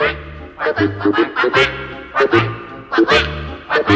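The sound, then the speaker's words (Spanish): Ducklings on a pond quack in a rapid series of many short, nasal calls, grouped in uneven clusters with brief pauses between them. “Cuando Juan llega al laguito, encuentra 12 patitos que están nadando.”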